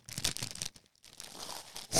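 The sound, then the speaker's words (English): Someone crunching crisps: brittle crackling and crinkling in busy bursts, a brief near-silent pause, then more crunching that swells at the end. No talk. “Look, everyone. Fucking he's eating his fucking crisps.”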